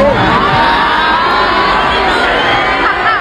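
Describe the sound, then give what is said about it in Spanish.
A concert audience reacts to a performer's jibe at the eliminated Mexicans with a dense, loud, continuous mass of shouting, whooping and cheering voices that holds steady throughout. “se le ocurrió burlarse en pleno concierto de los mexicanos que ya fueron eliminados. No. Y la respuesta del público es la que usted se imagina.”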